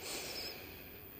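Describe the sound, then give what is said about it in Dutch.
A slow breath drawn in through the nose with the mouth gently closed, part of a guided breathing exercise: a soft, steady, airy hiss of just over a second that eases slightly toward the end, with no talk. “Adem in door je neus naar je buik.”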